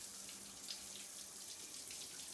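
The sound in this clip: Soft running water in a bath while a body is being washed, a faint, even hiss with no talk over it.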